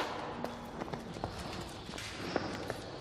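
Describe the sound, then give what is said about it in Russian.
Hooves of a large black bull being led into a colonnade with a pool, a few faint, irregular clopping steps over a low, steady background. “В колоннаду с бассейном вводит большого черного быка.”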